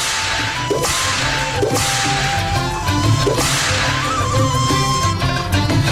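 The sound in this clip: Several sharp whip cracks, used as a sound effect, snap out over steady music. Each is a quick, bright crack that stands out clearly above the backing.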